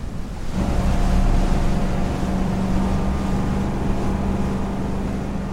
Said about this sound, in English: They pull toward the dock. Hands unload a boat.